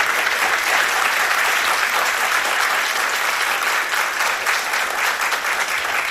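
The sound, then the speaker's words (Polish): Audience applause fills the stretch: a dense, even wash of many hands clapping for guests at an event. It stays loud and steady for about six seconds with no voices over it. “Brawa dla naszych bohaterów.”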